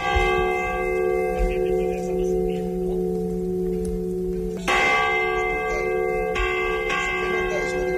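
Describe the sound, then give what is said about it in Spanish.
Restored parish church bells ring in a test recording, layering sustained, shimmering tones that hum on steadily while fresh strikes enter a few times and renew the bright ringing. “Nos han prestado sonidos de las campanas arregladas”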